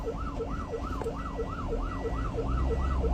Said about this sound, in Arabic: إسعاف إسعاف إسعاف، افتحوا الطريق،